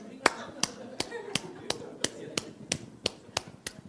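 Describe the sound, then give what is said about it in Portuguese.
A toy doll clapping its hands: eleven crisp, sharp claps in a steady, evenly spaced rhythm, moderately loud over a low background. “Olha aí, a boneca que a Luciana brincava, a boneca bate palminha.”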